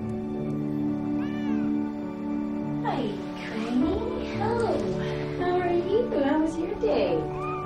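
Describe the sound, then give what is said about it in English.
A domestic cat meows several times. The mewing cries bend up and down in pitch over a steady background hum. “A cat sits up and approaches her.”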